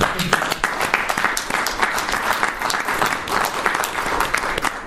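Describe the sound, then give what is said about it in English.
Audience applause at a county meeting, an ovation for the sheriff and his staff: dense, steady clapping from many hands that holds at an even level throughout. “So can we give an ovation to our sheriff and his staff?”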